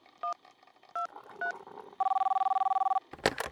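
Telephone keypad dialing an emergency number: three separate DTMF beeps spaced apart, then a second-long ringing tone with a rapid, even pulsing flutter, ending in a short burst of noise.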